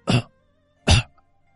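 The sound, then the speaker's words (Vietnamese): Dry coughing from a frail old man: two short, harsh coughs under a second apart, heard alone without talk. “Lão nói được một câu lại tiếp tục ho khan”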